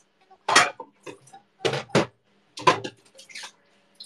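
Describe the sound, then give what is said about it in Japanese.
Clanking and scraping come from a frying pan being washed, in several short, busy bursts of clattering metal separated by brief quiet gaps. “フライパンもなかった。フライパンも洗わなきゃ。”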